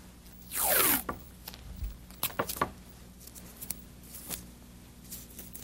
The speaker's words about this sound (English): Just put some tape to keep them together.